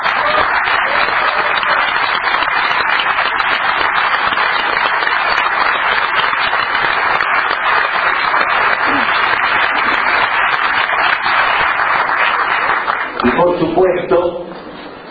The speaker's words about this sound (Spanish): Un gran aplauso